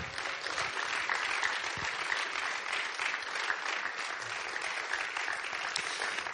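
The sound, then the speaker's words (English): Audience applause welcomes a speaker at a church gathering, an even, continuous clatter of many hands clapping throughout. “Would you give him a warm welcome?”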